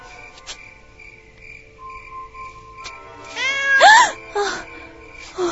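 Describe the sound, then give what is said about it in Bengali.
A cat gives one loud, drawn-out meow with a rising, wavering pitch, over a steady, high-pitched insect-like drone. “আরে আরে ভয় পেও না, ওটা একটা বেড়াল, হুট করে সামনে চলে এসেছে তো”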